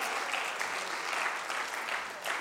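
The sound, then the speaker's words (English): Church audience applauding the team, a steady, even patter of many hands clapping, fairly quiet and unbroken. “Why don't you just clap your hands and let them know, wow, I love what you've done to the place.”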